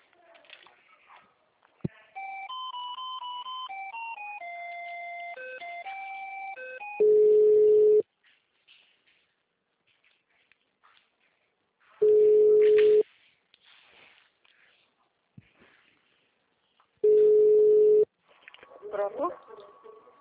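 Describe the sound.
Telephone call transfer tones: a short run of stepping electronic tones, then three long, steady beeps evenly spaced apart, with a brief voice-like sound at the end.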